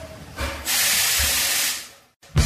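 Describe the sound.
A steam locomotive on a heritage steam railway at a steam museum gives a loud, sustained hiss lasting about a second. The hiss swells up abruptly and then fades over a low rumble, and a short break is followed by another burst at the end.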